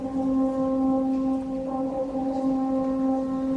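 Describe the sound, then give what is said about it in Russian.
Roland's war horn sounds a farewell call: one loud, sustained horn note with rich, steady harmonics that holds level without a break. “Роланд затрубил во всю мощь. Но звук его рога был уже не столько зовом о помощи, сколько прощанием с дорогим другом детства и погребальной мелодией для воинов и самого Роланда.”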